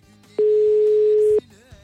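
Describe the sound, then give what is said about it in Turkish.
A telephone ringing tone on an outgoing call: a single loud, steady ring of constant pitch lasting about a second, set against a faint background. “İki daha çaldırır kapatırım.”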